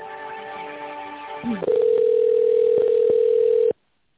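A steady, unbroken telephone line tone sounds for about two seconds while an office call is being transferred, following a softer stretch of mixed tones, and then cuts off abruptly into silence.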